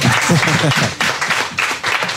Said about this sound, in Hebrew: אתם מוכנים למחוא כפיים בכל רגע נתון. זה מטורף. עוד כפיים